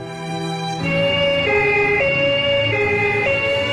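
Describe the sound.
Loud emergency vehicle siren in a two-tone pattern, stepping back and forth between a higher and a lower pitch at a steady pace, heard alone without voices.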